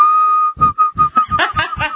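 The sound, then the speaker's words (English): A person whistles by drawing air inward: a steady, clear tone first, then a series of short, breathy, pulsing whistle bursts with gaps between them. No one speaks. “can you do the inside, the opposite whistle, the where you whistle inwards?”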